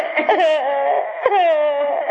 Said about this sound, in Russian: Но перестаньте сейчас же реветь. Перестаньте реветь.